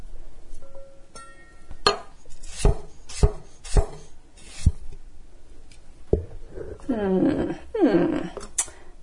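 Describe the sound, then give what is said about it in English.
Knife chopping a peeled cucumber, a few sharp, evenly spaced cutting strikes, followed by a voice talking near the end. “the cucumber just sticks to the knife, so I'm periodically just sliding all the cucumber off the knife into a little bowl.”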